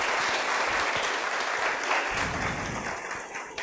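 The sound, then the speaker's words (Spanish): Applause from the audience welcoming a speaker to a talk on privacy, data protection, Cambridge Analytica and Facebook: a dense, steady wash of many hands clapping at once, heard alone and holding an even level throughout. “Por favor, un fuerte aplauso.”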